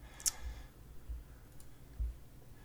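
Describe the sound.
Faint mouse clicks come from someone browsing online video links: one sharp, light click near the start, then a few soft low thumps against quiet background hiss, with no talk.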